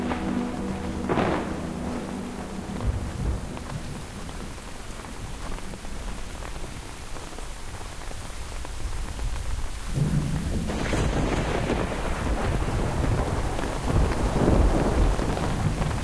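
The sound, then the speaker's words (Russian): Rain falls in an ordinary summer thunderstorm: a steady hiss of rain on surfaces with rumbling thunder, a brief rumble early on and a louder, longer swell of thunder in the last third. “начинается дождь. Это обычная летняя гроза.”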